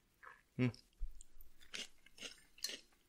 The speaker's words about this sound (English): I'm going to eat.